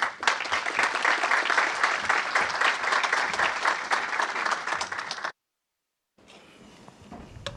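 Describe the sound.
Audience applause welcoming a keynote speaker at a talk: a dense, steady wash of many hands clapping for about five seconds, then an abrupt cutoff into a brief silence and faint low background noise.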